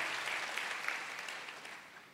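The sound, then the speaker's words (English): Audience applause in a church service: steady dense clapping from a crowd, moderately loud and fading slightly toward the end, with no talk over it. “let's give them a big clap.”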